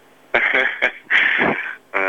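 A mobile phone ringtone for an incoming call plays as a few bright, melodic tonal bursts, with a long middle note and a fresh phrase starting at the end.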